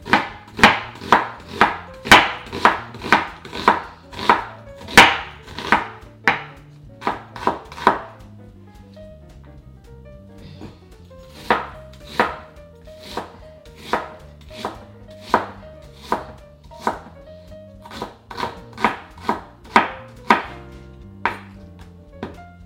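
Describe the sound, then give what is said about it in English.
A knife dicing an onion for a vegan chana masala: many quick, sharp chops in rapid bursts with a short pause partway through, no talking. “So I'll just move that aside so you can see me dicing up the onion.”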